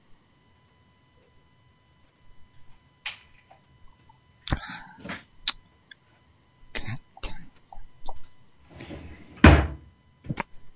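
Doors being slammed: an irregular series of sharp bangs and knocks with scattered clatter between them, building to a loud hit near the end.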